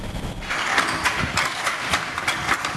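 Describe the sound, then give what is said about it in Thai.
A hand loom's reed beats threads while weaving Ratchawat-pattern Thai cloth from Ko Yo, Songkhla. Sharp clacks repeat at an even, steady rhythm over a constant low hum. “เสียงขี่กระทบเส้นได้เป็นจังหวะแต่ละเส้นถูกถักทออย่างประณีตจนกลายเป็นผืนผ้าที่มีเอกลักษณ์เฉพาะตัว”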